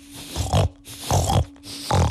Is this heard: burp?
no